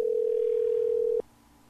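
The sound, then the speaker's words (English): A telephone tone sounds as one steady, mid-low hum that holds for about a second before cutting off abruptly, leaving only faint background hiss. “Get up and answer your phone, hon.”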